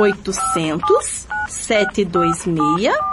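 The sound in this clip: Telephone keypad dialing tones sound as a quick run of short beeps at steady pitches, mixed with voice-like vocal sounds.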